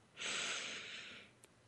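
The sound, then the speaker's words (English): One long, deep breath drawn in through the nose during a guided breathing exercise: a soft, airy hiss that swells quickly, holds for about a second, then fades away. “let's just take a couple of deep breaths here together, breathing in”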